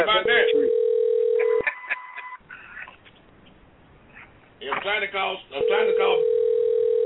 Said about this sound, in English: I'm trying to call. Don't answer his phone no more.